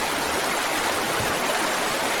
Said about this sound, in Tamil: இந்த ஒரே ஒரு பாத்திக்கு மட்டும் தண்ணி பாய்ச்சிட்டு